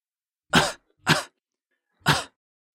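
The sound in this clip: A man coughs three times, a quick pair followed by one more after a pause. Each cough is a short, harsh burst set against silence.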